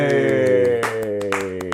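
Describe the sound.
A short, muted cheer of a couple of voices with a few light handclaps, celebrating news of the UK's first moon rover; the thin clapping scatters irregularly after the brief vocal cheer.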